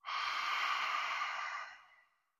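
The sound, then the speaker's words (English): A single long exhale pushed through the vocal cords during a breathing exercise, a soft, airy, breathy rush that holds steady, then tapers away, heard alone. “You can feel that air pushing through the vocal cords. One more time. Inhale. Exhale.”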